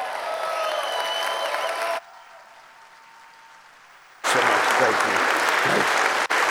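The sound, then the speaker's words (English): Applause from a church audience standing to welcome a pastor to the stage: loud, dense clapping for about two seconds, a quieter lull, then a second strong burst of clapping that carries to the end. “CFTN, could you stand on your feet and give him a warm, warm CFTN welcome?”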